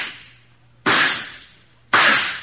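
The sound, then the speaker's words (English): Revolver shots fired one after another during target practice, the gun held at arm's length: sharp, loud cracks spaced about a second apart, each trailing off in a long decaying tail. “Now, try again. And fire the shots in succession.”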